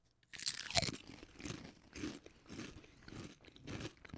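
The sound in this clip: Barbecue-rib-flavored Dorito tortilla chips crunch in many quiet, crisp bites and chews, with the sharpest crack near the start.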